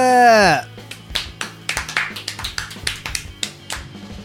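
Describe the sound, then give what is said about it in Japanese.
Weak, unenthusiastic audience clapping follows a brief voice: a sparse, uneven run of single claps, each short and sharp, with gaps between them and no sustained applause. “普通なんか元気ない拍手ですな。”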